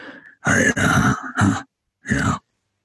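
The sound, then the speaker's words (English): A voice imitates a little grumbling groan made before an emphatic point, heard as several short, low, throaty voiced bursts, then a pause and one final groan. “he sort of takes a little moment to sort of do like a little grumble groan, like,”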